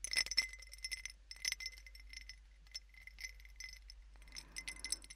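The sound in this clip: Ice clinking in a glass drink: a faint, irregular series of many light, bright chinks and small rattles, with brief pauses between clusters and no voices.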